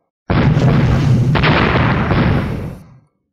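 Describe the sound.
A loud explosion booms out with a rushing shockwave roar, a sharp second crack landing partway through before the heavy rumble slowly dies away after about three seconds.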